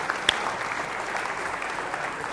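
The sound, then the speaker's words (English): Audience applause for the winner of a rock-paper-scissors game: steady, even clapping from many people with one sharp accent near the start. “Oh, winner. Round of applause.”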